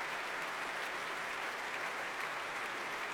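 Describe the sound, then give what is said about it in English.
Concert audience applauding an orchestra after a Beethoven symphony, a dense, even, sustained roar of many hands clapping with no voices over it. “He stands at the side of the stage now, right behind the second violins on the right-hand side of the stage, acclaiming his orchestra, who in turn are being acclaimed by this audience.”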